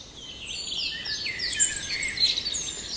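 Birdsong at dawn, a chorus of several songbirds singing together. High, overlapping chirps and trills flow continuously over a soft background hiss and grow slightly livelier toward the end.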